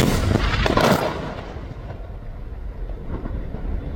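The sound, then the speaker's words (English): An Israeli airstrike hits a building in Tyre, Lebanon: a loud, broad blast near the start, followed by a long, rumbling roar that slowly fades and then swells slightly toward the end. “Well, that was the sound of an Israeli strike on a building in one of the largest cities in the country, Tyre.”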